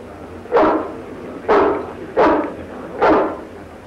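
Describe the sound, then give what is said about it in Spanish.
A dog barks four times, each bark loud and full with a quick attack and a short trailing tail, spaced roughly evenly with no voices around. “En ese momento el perro reconoce a Ivanhoe.”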